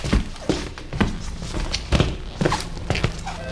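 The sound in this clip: Running footsteps of someone hurrying into a stairwell: many heavy, thudding steps in a fairly steady rhythm, roughly two per second, loud over a dense background.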